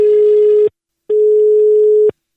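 Telephone line tone as a call is placed: two steady, loud, mid-pitched beeps separated by a short silence, the second one longer than the first.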